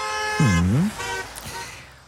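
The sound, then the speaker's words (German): A car horn honks on a street of small bars and cafés where cars tear through too fast: one loud toot whose pitch dips and bends back up, followed by fainter tonal traffic sounds. “Autos, die da mitten durchbrettern.”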